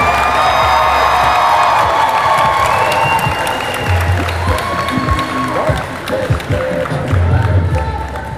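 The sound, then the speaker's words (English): Convention crowd cheering and applauding as panel guests come out on stage before a New Jersey audience. Loud, sustained applause with whoops and shouts runs throughout, while voices mix into the din. “I want you guys to make as much noise for them as possible.”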